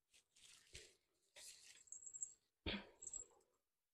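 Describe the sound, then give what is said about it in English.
Dog barking: a few short, rough barks mixed with scrabbling bursts, arriving in uneven clusters and fairly quiet overall. “If you hear my dog barking, sorry. He's sorry. He's showing out right now.”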